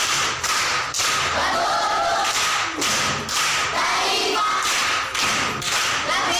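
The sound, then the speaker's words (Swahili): Loud, dense clapping from a group greets a contestant who answered correctly in a school quiz, with a few heavier rhythmic beats running through it. “Amepata. Makofi kwa mjomba Gavana.”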